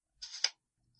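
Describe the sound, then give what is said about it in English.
A View-Master reel lever clicking: one short raspy slide that ends in a single sharp click, then near silence. “So instead, I'm going to relive the experience by looking at the Viewmaster reels. Here we go.”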